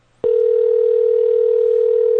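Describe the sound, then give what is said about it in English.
A telephone dial tone sounds while a call is being placed. After a brief hush, a single loud, steady, unbroken tone holds at one pitch for about two seconds. “We're going to dial him up on the old skip.”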